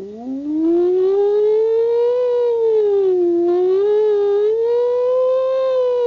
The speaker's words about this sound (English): the sound of a distant approaching and receding siren